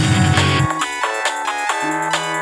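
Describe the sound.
A mobile phone ringtone sounds for an incoming call from a hidden number: a bright, steady electronic melody of stepped tones that runs the whole time, with no talk over it.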